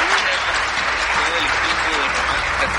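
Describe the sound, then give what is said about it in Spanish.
A studio audience on a televised singing show applauds to welcome a guest. The applause is loud, dense and sustained, with a voice heard over the clapping. “Un aplauso enorme para recibir a Sergio Maya. ¡Bravo!”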